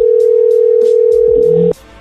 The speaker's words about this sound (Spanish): ahí le estamos marcando de nuevo